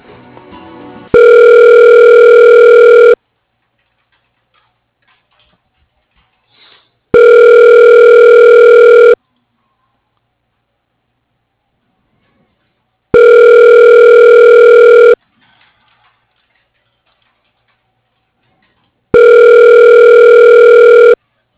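A phone line giving the ringing tone while a call is being transferred: four long, steady buzzing rings, each about two seconds, separated by even silent pauses, with nothing else heard.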